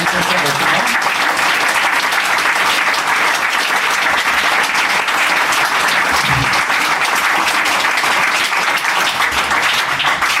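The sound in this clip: An audience applauds to welcome someone, producing loud, dense clapping that holds at a steady level for the whole stretch without pause.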